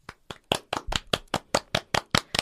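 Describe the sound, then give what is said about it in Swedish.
Hand claps in a brisk, evenly spaced series of sharp, crisp slaps, heard alone with no talk. “Vanliga tacksamhetsgester är applåder.”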